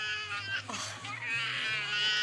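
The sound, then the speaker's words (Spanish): A child cries in a high, wavering, sustained wail that runs through the whole clip, loud and steady, with other voices mixed in. “No puedo quedarme con el niño llorando.”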